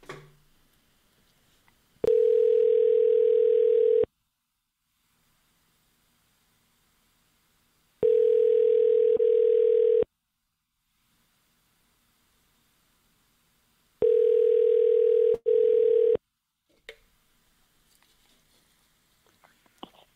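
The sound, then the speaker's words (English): Telephone line tones: three long, steady electronic beeps of about two seconds each, separated by long silent gaps, the last one briefly broken, with faint handling noises afterward. “Now let's dial it.”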